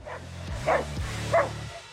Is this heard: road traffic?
no